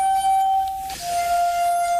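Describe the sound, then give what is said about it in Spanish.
Crystal wine glasses tuned with water ring out as a neighbour rehearses on them, giving a sustained pure, glassy tone that breaks off briefly near the middle and then resumes at a slightly different pitch. “Un vecino ensayando con copas de cristal, esto no se aguanta. Estas copas, que se afinan con agua, son la versión doméstica de un instrumento asombroso”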